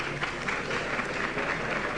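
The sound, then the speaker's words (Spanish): Applause rises from onlookers as a Veracruz brotherhood procession, led by its guide cross, leaves the hermitage into the Barrio Nuevo streets. The clapping is a continuous, steady patter of many hands at moderate loudness, with no talk. “se produce el primer aplauso de la mañana para esta hermandad de la Veracruz”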